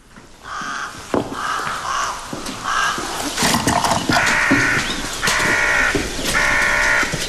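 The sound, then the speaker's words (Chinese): A crow caws in the early morning, giving a series of harsh, rasping calls. The first calls are short and spaced; the later ones are longer and louder, given in a few drawn-out bursts. “一大清早就听到乌鸦叫，晦气得很。”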